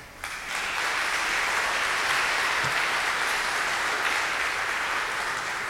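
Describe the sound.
Warm audience applause welcoming a guest preacher. It begins within the first half second, then holds as a dense, even wash of clapping without a break until the end.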